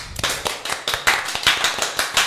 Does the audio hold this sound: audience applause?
yes